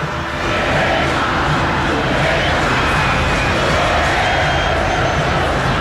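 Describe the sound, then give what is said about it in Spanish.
Santos football fans in a stadium produce a loud, steady crowd roar of cheering and chanting that barely changes in level across the stretch. “pide el aliento de la gente. Así suena el público Peixe.”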